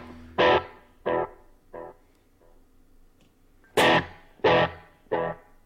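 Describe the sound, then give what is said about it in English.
Guitar notes played through a delay pedal set to endless repeats. Two groups of three bursts are heard without talk, each starting with a loud note followed by quieter, fading echoes. “You can change it to where you have just endless delays.”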